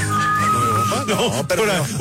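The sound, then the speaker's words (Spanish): A person whistles with a finger in the mouth, giving one steady, piercing high note that lasts just under a second before voices take over. “Es que métale un dedo y chiflamos.”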